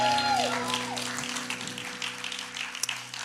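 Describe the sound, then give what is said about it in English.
A church audience claps to give the Lord a hand of praise during a service, a dense, steady wash of many hands applauding that tapers slightly over a few seconds. “Come on, let's give the Lord a hand praise.”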